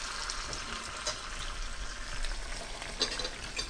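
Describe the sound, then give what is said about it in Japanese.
Sizzling as about a cup of tomato sauce for arrabbiata is poured into a pan of hot oil with the heat switched off, giving a steady, fairly loud frying hiss with scattered crackles and no talk. “やはりまたちょっと一度火を止めますね。そして作っておいたトマトソースを4分の1量、だいたい1カップ分ぐらい加えます。”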